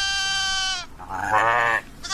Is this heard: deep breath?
no